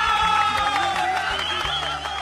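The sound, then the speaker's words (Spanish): Audience applause and cheering in Las Palmas, a full, sustained din of clapping mixed with raised voices and whoops. “Para los amigos de Idea Hogar, a ver, los aplausos para ellos en Las Palmas.”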